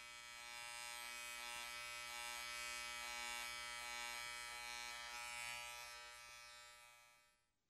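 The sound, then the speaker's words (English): An electric razor buzzes steadily as a man shaves. The dense, harmonic-rich drone holds for several seconds without a break, then dies away at the end. “He's shaving.”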